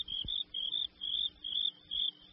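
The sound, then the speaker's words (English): Crickets chirping: a faint, steady series of high, trilling pulses repeated in short, even bursts with brief gaps between them. “Soon there were two crickets chirping.”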